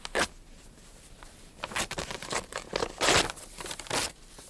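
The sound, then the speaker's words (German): Paper envelope being torn open: a few sharp ripping bursts mixed with crinkling and rustling, moderately loud and irregular over several seconds, with no voices. “Reißen wir das Kuvert auf.”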